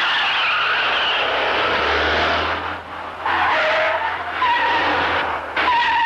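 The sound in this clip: Car tires skidding and squealing as the vehicle takes a curve, over a loud, steady engine roar. The skid is sustained throughout, and sharper, higher tire squeals break out in the second half.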